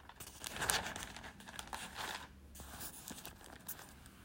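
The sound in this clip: Paper notes being flipped through, with soft rustling and crinkling that runs continuously and unevenly, quiet throughout.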